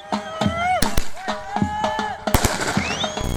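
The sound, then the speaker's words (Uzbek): Fireworks salutes fired through the night across the country to celebrate a neighbourhood victory: a few sharp, loud bangs scattered over steady voices. “Butun mamlakat bo'ylab salyutlar otildi.”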